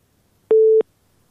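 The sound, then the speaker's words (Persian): A telephone busy signal sounds after a caller's line from Helmand is cut off: a single steady mid-pitched beep about a third of a second long, alone against near silence. “شنونده ما از هلمند تماسشان قطع شد”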